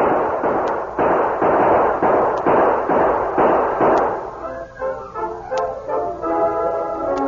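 Gunfire sound effect from a radio western shootout: many sharp, loud cracks in a quick, steady run for about four seconds, then a shift to softer tonal sound.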